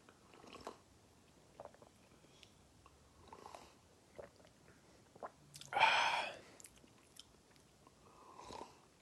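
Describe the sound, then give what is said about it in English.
A single short slurping sip of a drink made from a 7-Up drink packet, a brief burst standing out from faint scattered small noises. “But here we go. Let's taste it. Once again, it's a 7-Up drink packet.”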